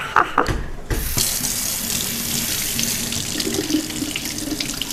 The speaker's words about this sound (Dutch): dat je appel kan wassen met, eh, met wasmiddel. Afwasmiddel. Ik doe het gewoon omdat het kan.